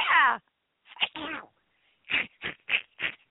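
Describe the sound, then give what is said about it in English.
A cartoon-style duck sneezing sound effect: a nasal, quacking squeal opens, then a few short honking bursts, a pause, and a rapid string of clipped sneezy squawks. “That was a duck sneezing.”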